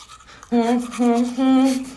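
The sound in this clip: A woman sings with a toothbrush in her mouth, her voice muffled and nasal. She holds three sustained phrases with a slight waver.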